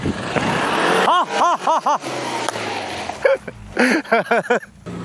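An off-road car engine revs hard while stuck in mud on a rain-soaked off-road course, a loud, rough roar overlaid by repeated short vocal exclamations from people in the car.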